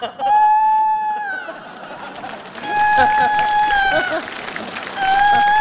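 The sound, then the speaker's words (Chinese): A rooster crows three times, each a drawn-out, harmonic call, the last one cut off, heard over loud, continuous crowd noise. “咋还打鸣呢？”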